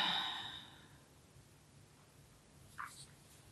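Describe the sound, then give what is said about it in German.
A deep breath, in through the nose and out through the mouth, is heard as one loud, breathy exhale that fades over about a second, followed by quiet and a brief soft breath sound later. “Atme einmal ganz tief durch die Nase ein und durch den Mund aus.”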